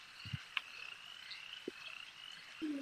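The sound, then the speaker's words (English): Frogs croak during a tabletop role-playing game: a few short, low, throaty croaks come in scattered bursts with pauses between them, over a thin steady high whine. “Frogs of unusual size.”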